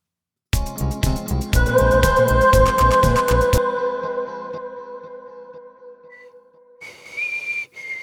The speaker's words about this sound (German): Machen wir ein bisschen Hall drauf mit dem Valhalla. Da ist der Name quasi Programm. Valhalla. So, Valhalla Vintage Verb. Mal gucken, wie das klingt.